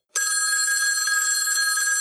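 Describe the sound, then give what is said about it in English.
A telephone bell rings continuously, a bright, steady, shrill trill that starts abruptly and holds at an even level, heard alone. “The call's going out. The phone's ringing. Somebody get the phone. Answer the phone.”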